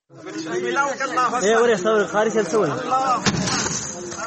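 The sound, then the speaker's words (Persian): A group of armed men without uniforms chant a religious slogan in loud unison while throwing stones and smashing musical instruments. Their rhythmic voices rise and fall, and a single sharp crash cuts through near the end. “این صدای نوار تصویری است که از روز گذشته به این سو در شبکه‌های اجتماعی دست به دست می‌شود. در این نوار تصویری گروهی از افراد مسلح بدون یونیفرم با شعار الله اکبر در حال پرتاب کردن سنگ و شکستن برخی وسایل موسیقی دیده می‌شوند”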